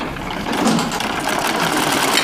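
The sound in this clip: A treadle sewing machine runs with a steady, fast mechanical whirr and clatter that swells slightly after a quieter start, then holds an even rhythm throughout.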